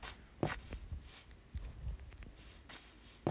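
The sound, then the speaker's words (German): Footsteps of a character walking in the video game Minecraft: a few soft, scuffing steps at uneven intervals over a low background hiss. “Ich laufe mal zurück, weil ich glaube, das ist nicht richtig, wie ich laufe.”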